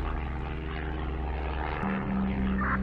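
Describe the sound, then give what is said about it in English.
A propeller aircraft flying steadily after take-off, piloted by a trainee: a continuous, even engine drone with a buzzing hum and steady low tones, and no voices. “Take off was so nice. Even the flight is very stable.”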